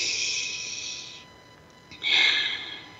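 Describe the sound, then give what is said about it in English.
Deep breathing during a guided breathing exercise: a long, airy rush of breath, a short pause, then a second, stronger breath that tapers off. No talking. “Take one more breath together.”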